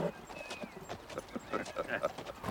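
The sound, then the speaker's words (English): Horse hooves pound in a rhythmic clip-clop as a party of Ute warriors gallops across the plain. The fairly faint, repeated hoofbeats run under a speaking voice. “A party of Ute warriors gallops across the plain, not far from the posse.”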